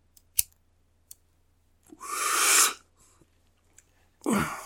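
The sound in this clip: A lighter lights up a smoke: two sharp clicks, then a longer breathy hiss, and another breathy burst at the end.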